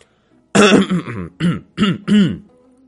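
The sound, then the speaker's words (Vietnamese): A man clears his throat with one long rough burst followed by three shorter guttural bursts, loud and with no other sound. “Miêu Nghị bỗng nhiên đằng hắng một tiếng nói.”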